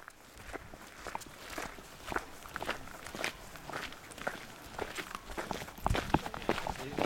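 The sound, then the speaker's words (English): Footsteps of a group walking up a trail toward Nine Mile Ridge, many soft, overlapping steps crunching steadily and faintly throughout. “Everyone spreads out as they walk up the trail toward Nine Mile Ridge.”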